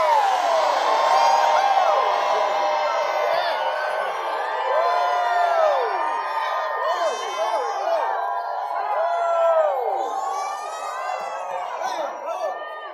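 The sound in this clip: A crowd screams, whoops and cheers, many overlapping voices rising and falling in shrill shouts. The noise stays loud and continuous for about thirteen seconds, with no single speaker standing out.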